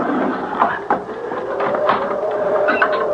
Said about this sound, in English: All I have to do is pull the wooden bolt back, and the door will open.